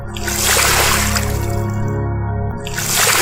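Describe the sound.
Water splashes and sloshes as a man's feet step down into the water at the bottom of a well, swelling early, dropping into a brief lull near the end, then surging again.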